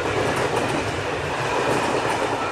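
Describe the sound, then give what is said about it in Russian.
A passenger train comes into a station as a loud, dense, continuous rumble of railway carriages, with rhythmic clickety-clack from the wheels on the rails and no voices. “Спустя почти сутки поезд прибыл на нужную станцию.”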